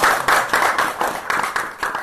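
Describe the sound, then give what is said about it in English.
Students at a school applaud enthusiastically after a talk by a visiting scholar: a short, dense burst of group clapping that pulses slightly in volume throughout. “And the students applaud, enthusiastically.”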